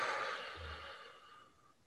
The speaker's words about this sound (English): Exhale out through your mouth.